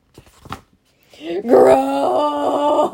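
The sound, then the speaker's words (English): A person groans in a long, sustained voiced moan that holds steady and loud for over a second after a few brief, soft vocal sounds. “Groan.”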